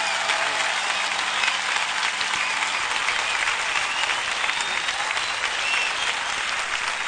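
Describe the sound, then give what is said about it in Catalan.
Long, steady applause from a crowd after the festival proclamation for the Festa Major of Sant Bartomeu in Sitges, a dense, even wash of clapping that holds at one level throughout without a break. “45 minuts de 45 minuts, dèiem, de pregó, llarg pregó, llarg aplaudiment.”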